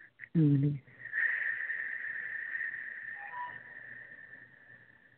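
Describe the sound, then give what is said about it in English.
Deep breathing during a guided breathing exercise: a short, low breath sound, then a long, steady, hissing exhale that lasts several seconds and slowly fades. “Family, let's breathe again.”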